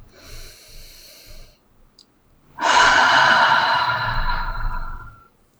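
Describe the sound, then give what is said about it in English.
A deep breath taken on instruction in a guided conversation: a quieter, drawn-in inhale, then after a pause a loud, long, breathy exhale lasting several seconds before trailing off. “Take another deep breath.”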